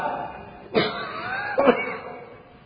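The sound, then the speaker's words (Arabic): Two short, deliberate coughs from a man, each a breathy burst, the second slightly louder, a moment apart over a quiet background. “الكحة دي معمودة يعني حديث متعمدة”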